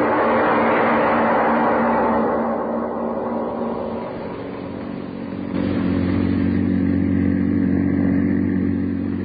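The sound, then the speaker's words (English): A car engine drones as the car drives along a country road, a loud steady rumble that eases briefly midway, then returns as a fuller, deeper hum. “The publisher and his chauffeur are driving along a country road.”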